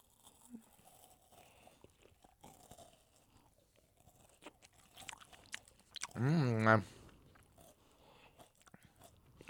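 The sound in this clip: Crunching and chewing of a Witch's Brew Kit Kat chocolate wafer bar, scattered sharp crisp bites and soft mastication, fairly faint with quiet stretches between.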